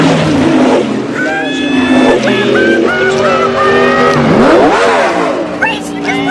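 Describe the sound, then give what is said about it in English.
A car speeds along a dark road, its engine roaring loud and revving hard, the pitch sweeping up and back down midway before holding a high, strained drone. “A car speeds along a dark road.”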